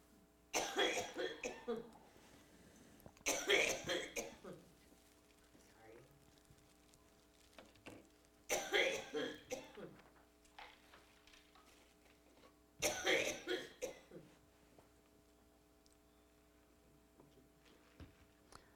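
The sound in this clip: A tickly coughing fit: four separate bursts of harsh coughing, each a cluster of rapid coughs, with quieter pauses between them.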